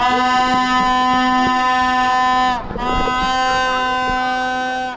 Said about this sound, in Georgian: ასე საყვირებითა და ხმაურით ცდილობდნენ აქციის მონაწილეები კანცელარიის შენობაში მყოფი მთავრობის ადმინისტრაციის წევრებისათვის ხმის მიწვდენას.